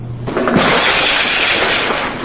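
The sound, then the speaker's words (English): A wired glass panel shatters when hit by a punching bag in a safety test, starting with a sudden loud crash and continuing as dense, steady breaking noise to the end. “The wire glass shattered, exposing razor-sharp wires that trap the bag as they would a person's arm or leg.”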